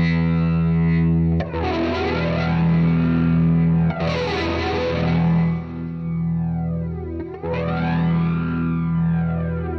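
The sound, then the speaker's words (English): Guitar played through an original 1970s MXR Flanger pedal: a loud sustained chord with a jet-like whooshing sweep that rises and falls in repeating swells every couple of seconds. “I used to buy these pedals. The MXR Flanger, the original 70s.”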